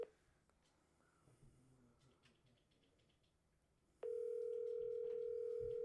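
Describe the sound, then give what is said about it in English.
A telephone dial tone cuts in abruptly after several seconds of low background noise. It holds as a steady, loud, unbroken tone through to the end. “Should I call Bryce? Call Bryce. Call Bryce.”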